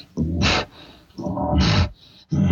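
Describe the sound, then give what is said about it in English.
A human voice imitates an excited bull panting, making three loud, breathy bursts with hissing edges and short pauses between them. “a bull will show excitement toward a cow or bull and he'll pant. Anytime you hear a bull kind of do this,”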